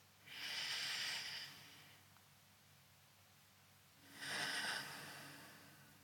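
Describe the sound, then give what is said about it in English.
Two long, deep breaths, each drawn in and let out, taken as part of a guided grounding exercise. Each is an airy, hissing rush that swells and fades, separated by a quiet pause, with no talking. “let's just take a lovely, long, deep breath in and out.”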